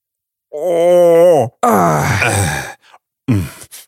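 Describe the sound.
A voice imitating a woman's moan, delivering two drawn-out, breathy moans followed by a shorter final one, loud and alone with no other sound.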